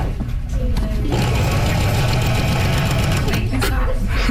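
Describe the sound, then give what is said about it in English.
A sewing machine stitches fabric, its motor running in a continuous, loud, steady whirring drone with a fast mechanical chatter that holds level throughout. “The machine will move the fabric itself. So all you're doing is just steering left to right.”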